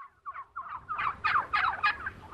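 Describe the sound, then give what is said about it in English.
Heritage turkeys raised on pasture gobble in a quick series of rattling calls, quiet at first and then louder, repeating in short bursts with no one talking. “These are heritage turkeys.”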